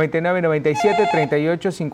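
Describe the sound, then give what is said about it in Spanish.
An electronic ringtone of an incoming telephone call warbles in quick, trilling bursts, a bright, fairly loud and repeated pattern with no pause across the whole stretch. “Nos vamos con una primera llamada de la tarde del día de hoy.”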